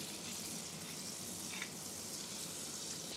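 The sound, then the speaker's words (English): Butter and olive oil sizzle in a skillet on high heat, making a steady, even hiss of frying that continues without voices. “Now, I've got the skillet going on high, and I'm gonna throw in a little bit of butter and a little bit of olive oil.”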